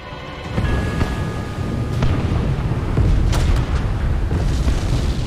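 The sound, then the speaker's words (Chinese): Heavy booms from naval artillery bombarding Omaha Beach during the Normandy landings form a loud, continuous rumbling roar, with a few sharper blasts standing out from the dense low thunder. “凌晨5:50，盟军海军开始炮击海滩。”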